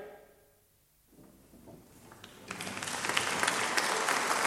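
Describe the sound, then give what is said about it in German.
Applause after a theatre performance rises from near silence and swells into steady, loud clapping from many hands. “Die Mitspielenden, vor allem Effi, ernteten reichen Beifall.”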